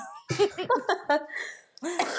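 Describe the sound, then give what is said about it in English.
A rapid burst of several harsh, voiced coughs in quick succession, followed by a short pause and one more rough cough. “Sorry, I'm like coughing in your ear.”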